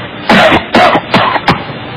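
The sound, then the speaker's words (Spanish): Forced coughing meant to fake bronchitis: four loud, harsh, deliberate coughs in quick succession, with no talk. “Tengo que toser más duro. Claro, chico. Hombre, para que parezca una bronquita, mira a ver.”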